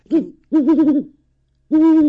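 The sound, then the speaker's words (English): Three hoots from a great horned owl perched on a handler's bare hand, loud and low-pitched. The first is short, the long middle call wavers, and the last is a steady, drawn-out hoot, with quiet pauses between them. “Can you hoot for us some more? What a guy you are. And you can see the tufts of feathers on the top of its head, which is the horns of the great horned owl.”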